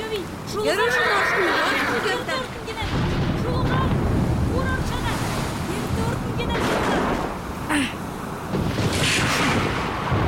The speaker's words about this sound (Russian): Поднимается сильный ветер. Все прячутся в помещении.